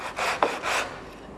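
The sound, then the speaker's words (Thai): Hand sanding of wood, a couple of rough back-and-forth rasping strokes with a dry scraping texture, fairly loud and with no talk. “ตรงนี้ถือโอกาสขัดเลยเนี่ยเกินอยู่นะเวลาขัดถั่วนี้วางบนบ่าตัวนี้แล้วก็ลากไป”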